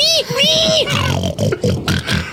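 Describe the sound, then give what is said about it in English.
Grown men on a train imitate pigs with their voices, starting with high, squealing oinks and then a run of several loud, low grunting bursts. “Those aren't pigs. Those are grown men. They're making pig noises”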